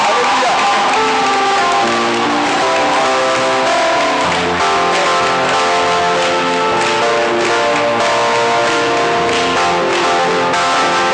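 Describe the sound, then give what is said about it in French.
A church audience acclaims Jesus with loud, sustained clapping that has a rhythmic pulse, mixed with voices throughout. “Je veux que tu acclames Jésus-Christ qui continue de faire des miracles.”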